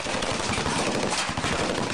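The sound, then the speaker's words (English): Sustained machine-gun fire from a platoon in combat, a dense, continuous rattle of rapid shots that stays loud and unbroken throughout with no clear gaps between bursts. “I can just about see the front of the platoon, and there was smoke coming off the guns as they started firing.”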